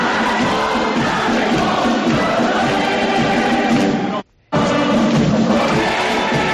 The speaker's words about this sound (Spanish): El himno del primer viernes de mayo, la fiesta de todos los jacetanos, de todos los jaqueses, y que ahora mismo, a estas horas, después del himno, están disfrutando por sus calles.